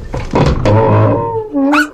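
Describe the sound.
A dog whimpers and growls after scratching at a crate: a low, rough, drawn-out growl lasting over a second, then a short, high whine rising sharply at the end, fairly loud, with no talk.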